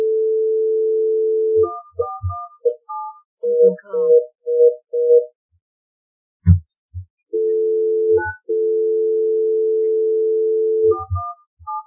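Telephone dial tone as a phone call is placed: a steady hum breaks into a series of short touch-tone beeps and clicks. The continuous tone returns twice more, and further beeps follow near the end.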